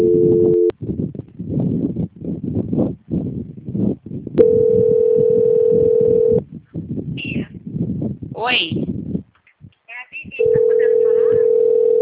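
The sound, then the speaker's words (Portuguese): Telephone tones during a call being transferred: a steady, even tone sounds in three stretches, at the start, in the middle and at the end, with people talking in between. “Tô aqui tentando transferir a ligação”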